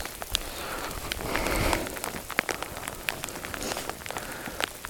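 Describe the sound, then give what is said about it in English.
Rain falling outdoors where sheep are present, a dense, steady patter with many sharp drop hits scattered through a constant hiss, fairly loud and with no voices. “Even the sheep is like, no rain, please. Oh well, it's only water.”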